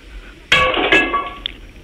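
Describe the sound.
A clay pigeon target shatters after a shot at a shooting event: a sudden sharp crack with bright, ringing clatter, a second burst of fragments a moment later, then the noise quickly dies away.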